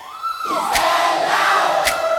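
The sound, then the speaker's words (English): A crowd answers a question from the stage with a loud, sustained roar of shouting voices that holds steady throughout, a tonal edge running through the massed yell. “Let's ask the crowd.”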